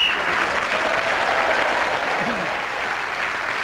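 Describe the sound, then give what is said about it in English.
An audience applauds warmly at the close of a comedy panel game show. The clapping is a dense, even wash of many hands that holds steady for the whole stretch and eases slightly toward the end. “has brought the show to a close with a resounding reaction from the audience with his comments.”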